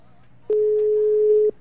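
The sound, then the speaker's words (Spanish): A telephone ringing tone on the line: one steady, low, even tone lasting about a second, heard alone. “Ah, está llamando.”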